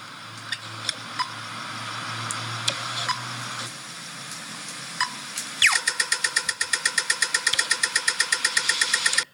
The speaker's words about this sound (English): But this is the pedestrian light when you're about to cross.